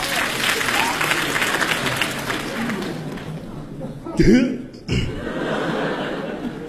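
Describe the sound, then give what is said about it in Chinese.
Audience applause at a crosstalk comedy theater: dense clapping for about four seconds fades out, followed by people talking and a few chuckles. “感谢大家对我们的掌声， 谢谢您。”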